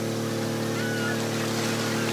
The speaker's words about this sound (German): Jetzt komme ich mit meinem 200 PS Außenborder.